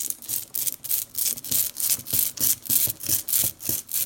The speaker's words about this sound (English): That's the sound of ink being rolled out onto an inking plate with a rubber brayer. Printmakers do this to smooth out the ink before they apply it to their printing blocks.